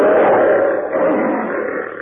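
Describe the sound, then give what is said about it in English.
A lion's roar, loud and sustained for about two seconds as one rough, growling tone that fades slightly at the end. “As the lion says...”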